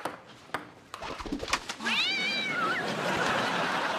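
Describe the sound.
A cat's meow in a dubbed television comedy: a single short meow that wavers in pitch, following a few sharp knocks and set against steady hiss.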